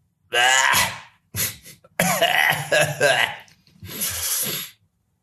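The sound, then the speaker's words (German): A man coughs harshly and clears his throat in several rough bursts, some in quick succession, separated by brief pauses. “Entschuldigung, man kann es da rausschneiden, das Gehuste.”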